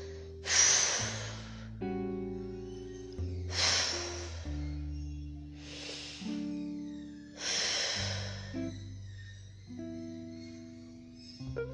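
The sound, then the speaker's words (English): Four slow, deep breaths, each a soft airy rush, spaced a few seconds apart. They sit over a quiet bed of sustained, shifting low musical chords, and everything stays faint throughout. “Gonna take a couple deep breaths”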